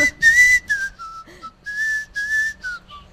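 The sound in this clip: A person whistles a film theme melody solo: clear, high, pure notes come in short phrases with brief gaps between them, some held and some quick.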